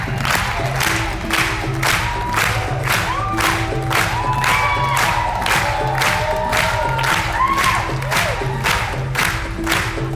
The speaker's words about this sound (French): Là, on clappe en rythme pour soutenir le danseur de Port Authority, film dans le monde, qui se passe dans le monde du voguing, présenté à un certain regard.